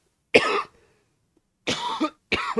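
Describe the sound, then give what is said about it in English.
A person recovering from COVID coughs three times, each cough a harsh, dry burst with short silences between them. “sorry, this COVID sucks. It sucks a lot. I mean, I'm over it, but man, that COVID cough is the worst, dude.”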